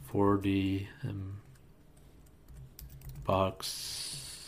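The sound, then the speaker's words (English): Keys clatter on a computer keyboard as a web address is typed in, a quick run of light clicks, while a man's voice talks in short bursts between and over the keystrokes. “So let me just type that in,”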